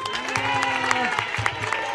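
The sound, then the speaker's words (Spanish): Applause from a crowd at a neighbourhood association gathering after a call to clean up a local ravine. Dense, steady clapping runs throughout, mixed with crowd noise. “¡Un aplauso!”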